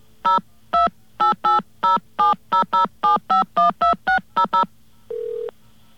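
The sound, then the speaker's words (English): Telephone keypad dialing tones from a keypad sounding faulty and sloppy: a rapid, uneven run of many short, loud beeping tone bursts, followed by one longer, steadier, lower tone. “Something wrong with our keypad there. It sounds kind of sloppy.”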